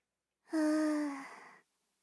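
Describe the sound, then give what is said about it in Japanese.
A single slow, voiced exhale like a sigh during a slow belly-breathing exercise, lasting about a second, heard alone with silence around it. “ゆっくり吸って、ゆっくり吐いて、”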